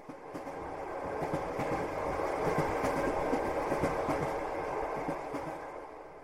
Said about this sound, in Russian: Мимо станции промчался поезд.